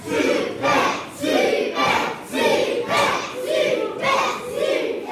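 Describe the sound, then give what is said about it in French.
Children in a game show audience cheer on a quiz contestant, a loud crowd of young voices chanting together in a steady, repeated rhythm of shouted bursts that continue without a break. “Les enfants vous encouragent et ceux qui nous écoutent aussi.”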